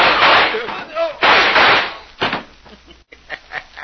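Gunshots ring out in a radio drama gunfight: a few loud, harsh blasts with long ringing decays, followed by several fainter, shorter cracks.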